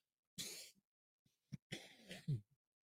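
Nose blowing comes in a few short, breathy blasts of rushing air, the first and last longer and separated by a brief snort, quiet and alone without speech.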